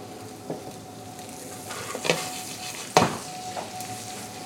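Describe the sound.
Butter sizzles and foams in a pan, seasoned with salt and pepper, ready for cooking scallops. A soft, steady hiss runs throughout, broken by a few brief, louder scrapes or clinks.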